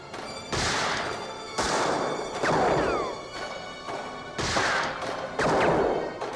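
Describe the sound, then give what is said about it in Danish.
Pistol gunshots ring out in a film scene: several loud, sharp cracks at irregular intervals, each with a ringing decay, and a few whining ricochet-like sweeps between them. “Og lyden af de her pistolskud bliver næsten symfonisk. Ja. Fordi hver pistol har sin lyd”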